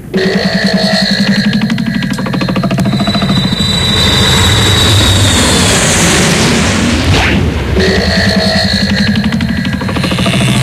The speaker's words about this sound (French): tu fais chauffer l'avion, s'il te plaît